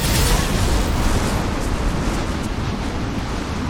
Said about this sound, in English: You're not gonna shoot any rockets at us today, Mr. Rocket Man. Oh, whoa. Maybe you are going to shoot rockets at us today.